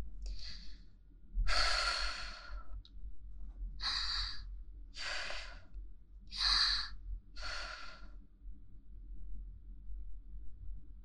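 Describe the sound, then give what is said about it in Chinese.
A woman takes several slow, deep breaths, each a soft, airy rush with short pauses between, heard alone and faintly. “深呼吸。”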